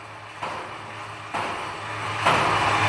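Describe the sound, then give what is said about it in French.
A wheel-testing simulator spins a wheel that has already covered thousands of kilometres and been partly cut open, giving a steady mechanical rumble with a low hum that grows louder in a few distinct steps. “C'est ce qu'on va voir avec une sorte de simulateur qui maltraite une roue pour tester sa résistance.”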